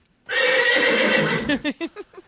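A horse gives a loud, sustained whinny, then a string of several short, choppy bursts as the call breaks up and trails off.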